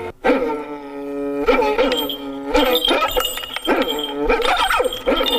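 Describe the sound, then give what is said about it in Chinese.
A person imitating a dog barking, voicing a series of several loud, throaty woofs with whining tails at a steady, repeating rhythm, with no other talk. “狗叫， 狗叫啊！哇，这狗叫 真像。”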